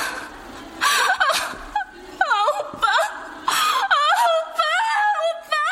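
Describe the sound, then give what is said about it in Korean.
Whimpering, wailing cries mixed with gasps, several high, quavering sobs in short bursts, fairly loud. “아이 왜 울어 재수없게”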